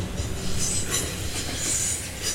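A train runs at Frankfurt Süd station with a steady rolling rumble, a bright hiss and a thin, high wheel squeal that rises and fades.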